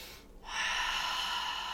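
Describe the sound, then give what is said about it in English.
A deep breath drawn in and let out as a steady, airy rush of air. It swells after a short quiet start and holds evenly to the end, with no talk over it. “And then taking a couple of deep breaths.”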